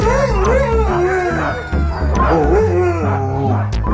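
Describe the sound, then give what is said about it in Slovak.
A pack of Siberian huskies and Alaskan malamutes howls together: several overlapping, wavering howls rise and fall in pitch, mixed with yips and whimpers over a steady low background. “Huňaté sibírske hásky a aliašské malamuty.”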